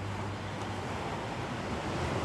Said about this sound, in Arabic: كنت أتمنى تكون معاي هون تشوف البحر زي ما أنا شايفه، وتسمع الموج زي ما أنا سامعه.